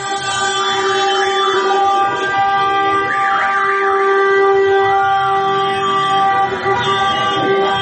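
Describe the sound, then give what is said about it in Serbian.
Car horns blare in a street celebration in central Belgrade after a football victory, with several sustained tones overlapping in a loud, continuous, steady wall of honking. “U centru Beograda su se već posle poslednjeg sudijskog zvižduka začule petarde i sirene automobila.”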